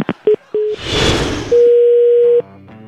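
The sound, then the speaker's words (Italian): Telephone tone after a dropped call: two short beeps, a loud burst of hissy noise, then one long steady tone lasting close to a second before it cuts off. “è caduta la comunicazione evidentemente”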